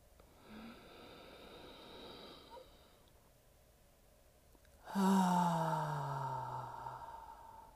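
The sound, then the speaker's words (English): A deep breath drawn in through the nose, faint and airy for about three seconds, falls quiet. It is then released through the mouth as a louder, sighing exhale that slowly trails away. “taking deep breaths in through my nose, holding that breath for a few seconds, and then releasing it through my mouth. And that sounded something like this.”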